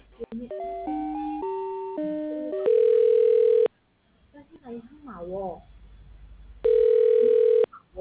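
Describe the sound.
Telephone line tones sound while a call is being transferred: a quick run of electronic beeps stepping between pitches, then two long, loud, steady tones separated by a pause in which a brief voice is heard.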